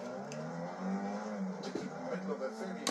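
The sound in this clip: A race car engine in a racing simulator game drones steadily, its layered harmonic tone holding fairly even with small surges of revving throughout.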